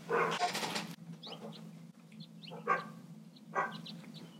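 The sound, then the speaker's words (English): Two dogs bark in a few loud, sharp bursts, with a strong cluster at the start and shorter barks spaced out after it, over a steady low hum. “That's my dog barking.”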